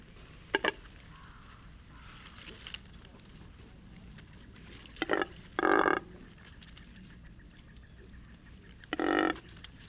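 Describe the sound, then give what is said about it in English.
A double-crested cormorant gives a few short, rough, low grunting and belching calls, separated by long pauses over a quiet background hiss. “It's a double-crested cormorant. Isn't this a cool grunting, belching sound? It sounds more like a pig rooting around after tubers than a bird.”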